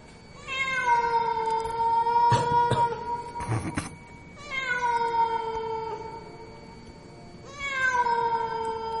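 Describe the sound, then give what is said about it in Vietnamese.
A cat meows in three long, drawn-out wails, each starting higher and settling into a sustained tone, with brief clattering noises during the first; no voices. “có tiếng gì vang vọng vang lên, nghe nó kinh lắm. Là tiếng con mèo nó kêu.”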